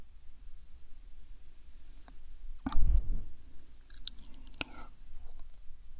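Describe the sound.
A small boy chewing a piece of fruit makes soft, moist clicks and smacks, with one louder crunching burst in the middle and a few sharp clicks afterward, all fairly faint and without speech.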